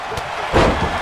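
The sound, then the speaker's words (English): A single heavy slam hits midway as a wrestler is knocked down by a clothesline in a WWE 2K23 wrestling video game. The loud, broad thud rises out of a steady wash of background noise. “What a clothesline by Cena.”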